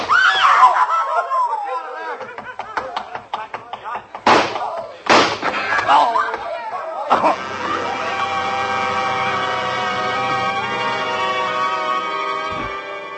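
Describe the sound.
Gunshots in a radio drama: two sharp, loud bangs cut through shouting voices and scuffling, followed by a sustained swell of dramatic music.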